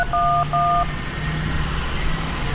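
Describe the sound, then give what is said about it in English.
Two short telephone keypad tones sound in quick succession, evenly spaced and clear over a low, steady hum that continues after them. “In fact, I think you just dialed 311.”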